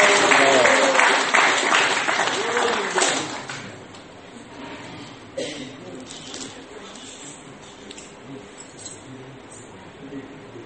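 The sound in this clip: Loud applause for two devotees at a Hare Krishna gathering: dense clapping fills the first few seconds, then dies away, and talking continues over the quieter remainder.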